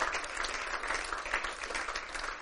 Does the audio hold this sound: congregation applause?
yes